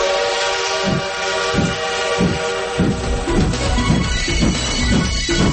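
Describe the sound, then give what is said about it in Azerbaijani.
A train sets off with sustained horn or whistle tones over a steady rumbling rail roar, rhythmic chuffs or clanks pulsing about once a second, loud throughout and with no talking. “Seçki qatarı 101.7 FM stansiyasından yola düşür.”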